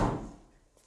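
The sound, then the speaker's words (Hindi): Bathroom door being opened, one dull, low thud at the very start that fades away quickly, faint and alone. “Bathroom का दरवाजा खोलकर अंदर जाती है”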